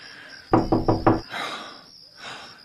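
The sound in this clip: Four quick, loud knocks on a door in a tight burst, followed by quiet background hiss.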